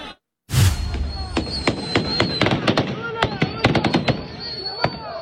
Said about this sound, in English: Police in Pakistan firing warning shots at protesters a day after a state of emergency was declared in northwestern Khyber Pakhtunkhwa.